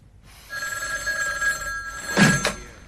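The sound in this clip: A telephone rings with a steady electronic ringing tone that holds for over a second, then gives way to a louder, harsher burst of ringing.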